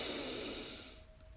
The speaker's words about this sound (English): So let's breathe in